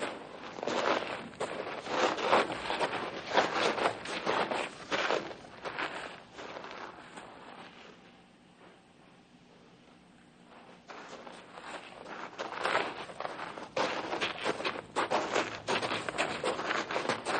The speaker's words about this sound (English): Let's stop and park our bodies for a bit, huh? Okay. We've been walking for 2 hours now.